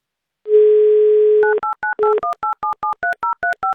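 A telephone dials a number: a steady dial tone for about a second, then a rapid, evenly paced series of short touch-tone beeps at varying pitches, clear and loud with nothing else heard.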